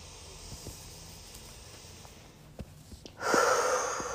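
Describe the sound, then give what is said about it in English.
A deep breath: after a quiet stretch with a few faint clicks, a loud, breathy hiss of air begins abruptly near the end and carries on to the close. “Again, let me take a deep breath.”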